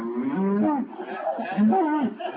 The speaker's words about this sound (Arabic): عايزكم تركزوا قوي قوي في البقرة دي، هم تفاجئوا بيها.